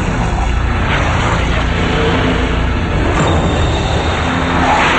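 Rush of daytime street traffic: a continuous, loud roar of passing vehicles with no distinct individual events, holding steady throughout.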